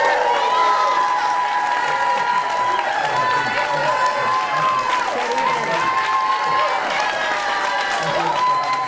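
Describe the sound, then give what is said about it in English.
Studio audience applause welcoming two candidates for a United States Senate debate in Texas: steady, even clapping with crowd noise that holds at a constant level through the whole clip. “we ask you to please hold your applause during this debate, except for now, as we welcome the two candidates running for the United States Senate in Texas.”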